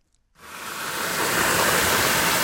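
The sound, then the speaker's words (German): Running water being measured during a home energy-saving check. A steady, broad hiss starts abruptly, swells slightly in loudness, then holds constant. “dann fließt das Wasser”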